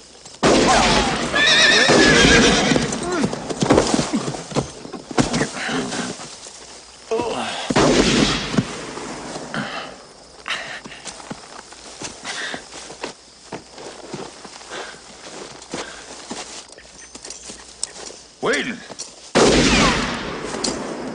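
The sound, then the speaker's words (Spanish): A horse whinnies loudly amid gunshots as riders come under fire in a film scene. Sharp blasts of gunfire and shrill neighing recur over shuffling movement and hoof noise, with brief voices. “Están disparándonos. Sí. Rayos. ¿Te hirió? No, protegí mi cabeza al caer del caballo.”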